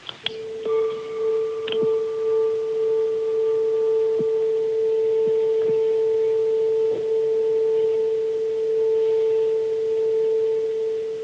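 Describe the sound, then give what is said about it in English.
A single struck note rings out, a clear steady tone with faint overtones above it. It sustains evenly for about eleven seconds with little decay, and no voices are heard. “What you're hearing is a fundamental note that is struck, and the wave that is the overtone that goes from that little note all the way to the stars.”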